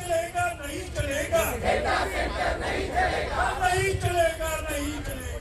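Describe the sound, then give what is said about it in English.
A protest crowd in India chanting against data centres: many voices shouting in a loud, continuous rhythmic chant with overlapping yells. “And we are seeing protests, aren't we, Will, across the world. I've just come back from India and you hear lots of sounds like this.”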